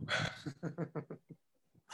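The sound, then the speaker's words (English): A pet dog barks: a loud opening burst, then a quick run of short, sharp barks or yips that trails off into quiet before another burst at the end. “Yeah, Finn, that's my dog this time. He wants to compete with Chewy.”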